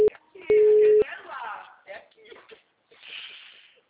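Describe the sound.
A telephone call tone sounds as two steady beeps, a very short one and then one lasting about half a second, followed by a voice talking over faint line noise.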